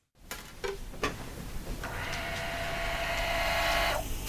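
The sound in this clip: A record-cutting lathe starts up as its stylus begins to cut, with a few clicks followed by a steady mechanical whir and a high whine that holds until near the end.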